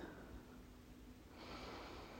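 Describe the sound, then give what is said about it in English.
A deep breath taken during a guided relaxation exercise, a faint, breathy rush of air that shifts in tone midway through, with no speech. “Allow your arms and shoulders to relax. Fall towards the ground. Breathe deeply.”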